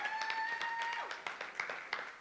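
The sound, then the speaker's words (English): A church audience applauds during a service. The clapping is faint and steady, with a few sharper claps standing out, and a held tone is heard early on. “We can give God a hand.”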